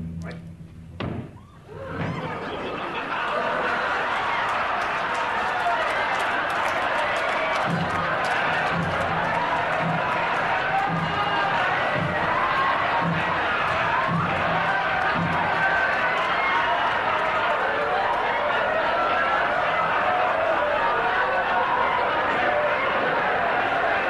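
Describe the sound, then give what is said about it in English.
A television studio audience cheers wildly, a dense, sustained roar of crowd noise that swells in after a short dip and keeps going, with scattered thuds and stomps mixed through the din. “You hear the audience just going crazy.”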